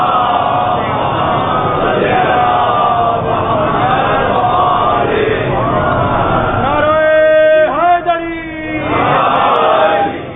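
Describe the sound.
An audience chants salawat in unison: loud, sustained massed voices that hold a steady, dense drone throughout, with a brief swell near the end.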